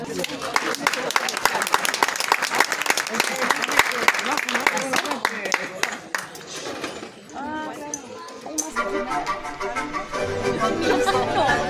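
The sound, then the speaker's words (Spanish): Audience applause welcoming a children's dance at a rural school event: a thick spray of clapping blends with music and voices, and the clapping thins out as the music takes over. “Los niños que mostrarán esta hermosa coreografía pertenecen a la escuela Bernardo Higgins. Lo recibimos con un fuerte aplauso.”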